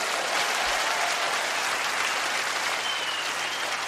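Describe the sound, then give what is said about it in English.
Audience applause from a played video clip: steady, dense clapping that holds at an even moderate level for a few seconds without a clear peak or fade. “Don't applaud.”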